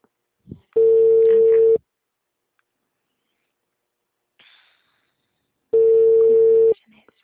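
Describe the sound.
A telephone ringback tone plays on an outgoing call: two loud, steady, mid-pitched tones of about a second each, separated by a long quiet gap with only faint small noises.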